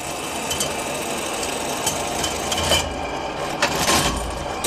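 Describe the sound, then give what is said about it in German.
A 125-year-old machine from the USA for measuring the area of leather pieces runs in a shoe archive and museum, with a steady mechanical whirring and a few louder clacks. “Diese Maschine misst die Fläche von Lederstücken, auch 125 Jahre später noch.”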